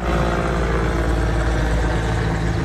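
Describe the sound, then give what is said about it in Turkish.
Loud, steady, dense engine and rotor roar from firefighting helicopters and planes flying over a forest fire in Muğla, continuous and unbroken throughout. “Uçak ve helikopterler yüzlerce kez sortu yaptı.”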